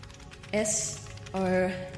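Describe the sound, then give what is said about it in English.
Keyboard typing on a handheld device gives light clicking, joined by two short tonal bursts with a clear pitch, one after the other. “Remembering my log machine, I took out my device and began to type.”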